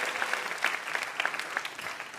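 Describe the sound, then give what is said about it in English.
Audience applause at a live comedy and music show, dense, steady clapping at a moderate level that continues evenly for the whole stretch. “One more round of applause for Matt and our VIP, Michael Ian Black.”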